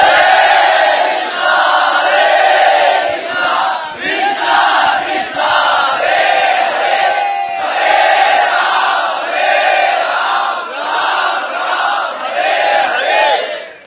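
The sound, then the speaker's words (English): A large group chants the Hare Krishna holy name in unison, loud and sustained, many voices blending into a repeating melodic phrase that carries on without a break. “Let us, in honor of Uddhava's sincere, intense longing, let us chant the holy name.”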